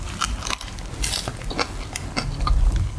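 Crunchy biting and chewing of fresh wholegrain bread: several crisp, crackling bites and chews over a low rumble, with no talk.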